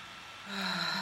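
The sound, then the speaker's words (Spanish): A deep inhalation during a guided breathing exercise: a soft, breathy rush of air that swells about halfway through and holds steady to the end. “Entonces vamos a inhalar.”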